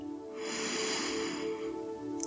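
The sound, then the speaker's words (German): A deep breath in draws as a long, soft, airy rush of air that swells and then fades, over a quiet steady background drone. “Noch einmal atme tief ein”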